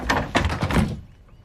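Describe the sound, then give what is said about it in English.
A door is opened tentatively at a house, giving a few short clunks and rattles over about a second before quiet. “Peter tentatively opens a door”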